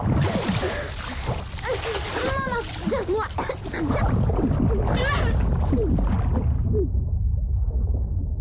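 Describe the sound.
A child's cannonball jump into water while swimming, with splashing and sloshing under excited children's voices. The splashy noise swells louder about halfway through and stays loud.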